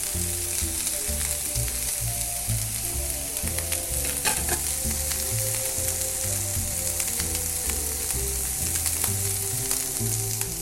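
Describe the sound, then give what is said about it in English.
Food sizzles and browns in a frying pan, a steady, hissing crackle that continues unbroken at an even level with no voices over it. “So you don't want to just constantly stir. You want to make sure that it's actually given a chance to really brown.”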